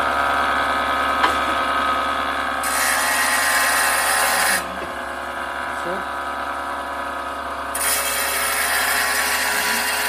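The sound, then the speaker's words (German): A water-cooled saw cuts a rock sample with a loud, steady grinding whine that drops and rises in intensity a few times as the cut goes on. “Und dann schaltet man die Säge an. Und da wäre aber jetzt schon die Probe oben. Da ist jetzt die Probe oben. Ja. Ja. Und das hört sich dann ungefähr so an.”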